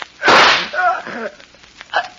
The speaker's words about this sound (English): You. You shot me. The gun wasn't empty.